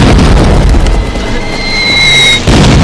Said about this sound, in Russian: Одна из бомб взрывается во вход, и несколько солдат падает.